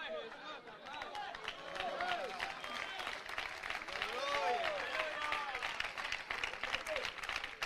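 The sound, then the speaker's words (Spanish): Applause from a church audience, a continuous spread of clapping with raised voices and shouts mixed through it, moderately loud and sustained. “Oiga, ese aplauso es para Donald Trump, hermanos.”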